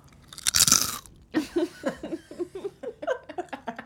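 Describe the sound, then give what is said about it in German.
People eating potato chips: one loud crackling bite, then a steady run of many rhythmic chewing crunches. “Richtig geil, dass wir nebenher Chips essen.”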